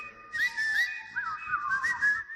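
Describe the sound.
A person whistles a wavering melody: clear, steady tones sliding up and down in pitch, carried over a faint breathy hiss with no talk.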